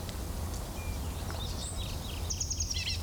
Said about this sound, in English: Call notes of the same bird.